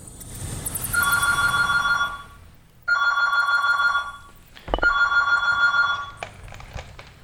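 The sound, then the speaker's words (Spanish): A telephone rings three times in Benicarló, Valencia, each ring a long, loud, bright trilling burst separated by short pauses. “escuchó el teléfono”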